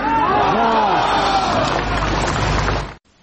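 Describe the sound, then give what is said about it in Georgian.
A crowd at a rally for Navalny shouts enthusiastically, many voices overlapping in a loud sustained roar that cuts off abruptly just before the end. “ნავალნის ამ შეკითხვას, როგორც მოისმინათ, ახტაცებული შეძახილები მოხვა.”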